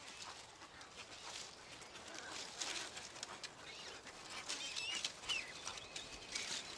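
Chicks begging their parents for food in a noisy breeding colony: many faint, shrill, high-pitched calls and sharp chatter overlap in a continuous, restless bustle.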